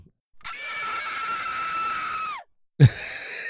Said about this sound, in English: that was a blood-curling scream